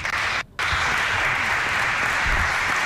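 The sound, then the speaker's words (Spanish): Audience applause welcomes a conductor to the podium at the Teatro Colón, a steady, dense roar of clapping broken by a brief dropout near the start before it resumes at full strength. “Vamos a convocar al maestro Carlos Mora a dirigir la siguiente obra. Lo recibimos con un fuerte”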